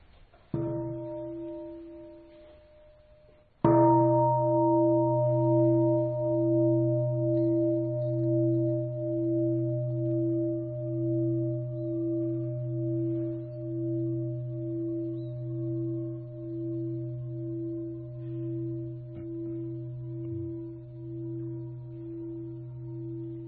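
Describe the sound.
Buddhist temple bell rung before meditation: one stroke fades, then a second, louder stroke rings into a long, deep, pulsing hum that slowly dies away, with no talk.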